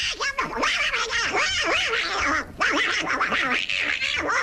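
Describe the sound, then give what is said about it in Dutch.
A cartoon duck voice quacks and squawks in a loud, raspy, rapid stream of nasal, warbling syllables, with one brief pause midway. “Ja, deze heetgeblakerde eend heeft wat te vieren vandaag.”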